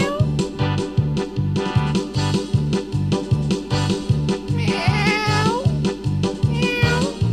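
Cat meows set into a music track, riding over a fast, steady, repeating low beat, with a higher wavering, sliding cry standing out partway through.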